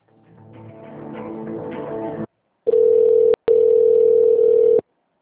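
A telephone line tone plays during a call transfer. A low buzzy sound swells for about two seconds and stops, then after a short silence a loud, steady single-pitch tone sounds, broken once briefly, before cutting off.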